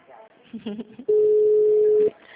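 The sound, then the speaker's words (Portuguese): A telephone tone on a call: a loud, steady single-pitch tone that holds for about a second, following a stretch of talk. “Vou ligar lá para nós averbar.”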